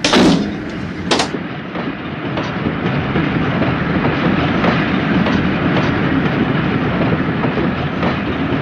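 A train departs from a station with a steady low rumble and rhythmic clacking of wheels, opening with a couple of short sharp bursts before settling into a continuous, fairly loud roll with no voices.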